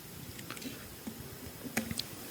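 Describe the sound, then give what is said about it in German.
Faint clicks of computer keyboard keys pressed for a Ctrl shortcut to select all and copy: a few light, sharp taps near the end over a steady low hiss. “Was ich normalerweise mache, ich drücke Kontrolltaste und dann, oder Steuerungstaste auf Deutsch, dann wähle ich alle aus, kopiere die”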